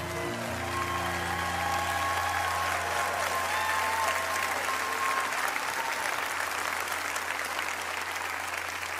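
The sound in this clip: A large church audience at Lakewood gives a loud, sustained round of applause to welcome a guest pastor, an unbroken roar of clapping that holds steady from start to finish.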